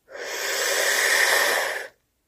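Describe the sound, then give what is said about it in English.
Breath drawn in through a rolled tongue during pranayama practice: one long, steady, airy hiss that starts abruptly, holds evenly for nearly two seconds and then cuts off. “Now roll your tongue and then breathe in”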